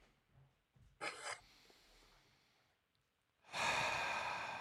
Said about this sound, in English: Can everyone give me a collective, and breathe out.